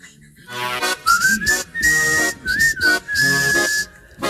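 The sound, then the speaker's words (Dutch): A whistle used to call cats indoors sounds two phrases, each a quick rising glide that settles into a long, steady, fairly high note, loud against bursts of background sound. “Het is een fluit die ik gebruik om de katten naar binnen te halen.”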